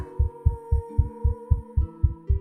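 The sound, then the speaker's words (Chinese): Rapid heartbeat thumps repeat at a steady, fast pace, many deep regular pulses layered over a sustained hum and held tones. “怎么开始对我心跳加速了？”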